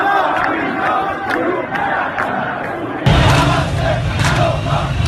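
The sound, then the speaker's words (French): A protest crowd in Iran chants slogans as a loud mass of voices shouting in rhythm. Partway through, the sound shifts abruptly to a fuller, louder crowd. “Quels sont les slogans que nous entendons”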